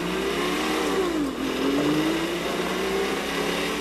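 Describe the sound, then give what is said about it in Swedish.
Engine of an open sports car roaring as it speeds off across a gravel farmyard, a loud, steady revving tone that dips briefly in pitch midway and then climbs again. “Singlar ner och landar precis på förarplatsen i den öppna sportbilen på gården. Och kör iväg så gruset sprutar.”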